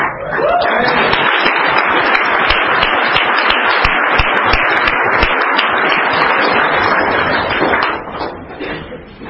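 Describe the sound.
Audience applause welcoming a speaker at an Alcoholics Anonymous meeting: a dense, steady wash of many hands clapping that holds evenly for several seconds, then tapers off and fades near the end.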